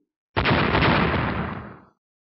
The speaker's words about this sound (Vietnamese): Đó chính là một quả cầu lửa to bằng cái đầu người bắn ra từ dưới lôi đài, nhanh chóng rơi xuống mặt lôi đài chỗ hai người đang dây dưa, đột ngột nổ tung.